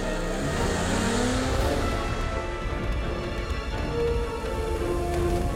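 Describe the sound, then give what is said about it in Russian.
A car's engine drives off with a steady, loud roar and some revving, with no pause from start to end. “Парни едут на машине, и Магнус бежит за ними.”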